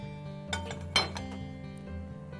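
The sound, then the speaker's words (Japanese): Light clinks of a frying pan being readied with a generous slick of sesame oil for frying gyoza: a few soft, brief metallic taps over a steady low hum. “フライパンにごま油を少し多めに敷きます。”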